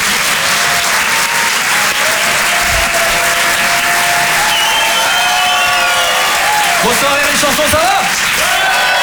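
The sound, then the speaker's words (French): Audience applause for a comedian at a comedy club: dense, loud clapping with crowd noise that holds steady for the whole stretch, without any pause. “Faites du bruit, s'il vous plaît, pour Arnaud Demanche.”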